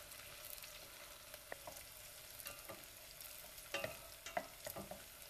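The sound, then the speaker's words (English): Bell pepper frying in a pan while being stirred: a steady, quiet sizzle with several soft scraping strokes from the stirring. “And with the bell pepper, make sure that you keep stirring in until it gets really soft.”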